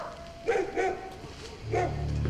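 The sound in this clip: Hunting dogs bark during a manhunt sweeping through a forest, giving three separate barks with gaps between them, followed by a low steady hum.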